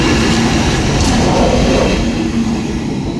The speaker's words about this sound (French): Ah voilà, vous voyez justement maintenant un long train de marchandises avec des voitures qui arrivent.